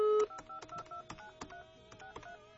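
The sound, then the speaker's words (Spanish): A phone number being dialed on a touch-tone keypad: a quick series of short, clear beeps at shifting pitches, alone without talk. “Ok, vamos a probar en este porque en el otro pues ya no nos dejó entrar la llamada.”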